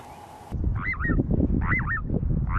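Little ringed plover calls at a breeding site where a few pairs nest: a few short, looping whistled notes repeat over a steady rough background noise.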